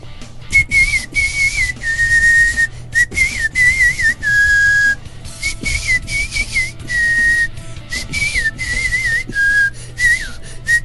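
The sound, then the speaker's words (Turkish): A person whistles in the so-called horizontal whistle style, a clear high tone that glides slightly within phrases. It comes as many short whistled notes separated by brief gaps, fairly loud over a low steady hum. “Yatay ıslık. Yatay ıslık. Tamam. Hazır mısın?”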